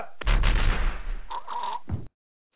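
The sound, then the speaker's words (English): Gunfire from a mock firing squad comes as one loud, rough, crackling volley that lasts just under two seconds and then cuts off abruptly into silence. “Would you mind standing against the wall and we'll take a quick shot? Ready! Aim! Fire!”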